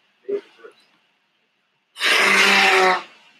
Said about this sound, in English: I need to blow my nose because this is, hold on.